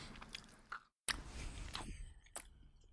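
Quiet, moist chewing of a chocolate-flavoured candy with the exact chewy texture of a Twizzler, with a few sharper biting sounds between soft squishy chews.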